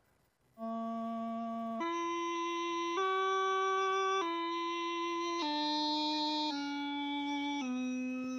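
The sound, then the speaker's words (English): A bagpipe plays a simple children's nursery melody without grace notes, so repeated notes merge into seven long, sustained reedy tones that step up in pitch and then gradually descend, loud and alone. “If we tried to play Twinkle Twinkle Little Star on the bagpipes without grace notes, it would sound like this.”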